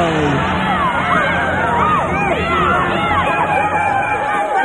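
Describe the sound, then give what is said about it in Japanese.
Studio audience noise greeting a radio host: a dense, steady crowd roar of cheers and whoops with overlapping voices, loud and sustained throughout. “素晴らしい拍手がありがとうございます。”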